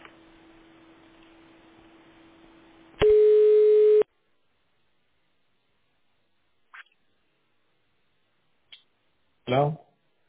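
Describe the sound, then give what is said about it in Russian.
A telephone call being placed: a steady dial tone, then a louder tone for about a second, then near-silence with a few short clicks. A brief voice comes in at the end. “Я пока Ерику позвоню.”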